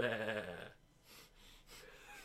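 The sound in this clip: A human voice imitates a goat bleating: one short, wavering nasal 'baa' that breaks off in under a second and leaves faint background noise.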